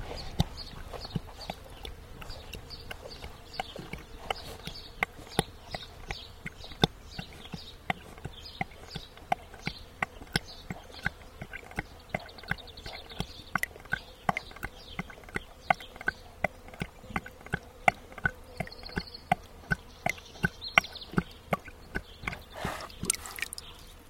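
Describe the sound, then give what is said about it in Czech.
A horse drinks water from a plastic bucket, downing about 16 litres in one go. Many sharp gulping clicks and slurps repeat in a steady rhythm, with no voices. “Tak to pije kuň z plastového kyblu a na ten jeden zátah vypil přibližně 16 litrů vody.”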